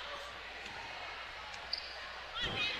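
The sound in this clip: A basketball dribbled on the court during a college game with Tech: dull, low thuds of the bounce set against a steady murmur of crowd noise, the clearest bounce coming near the end.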